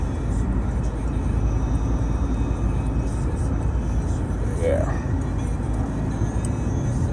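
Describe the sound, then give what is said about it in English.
Steady road noise from a car driving to work on a road. A low, constant rumble continues evenly throughout. “I'm driving to work this morning. I need to get off this road.”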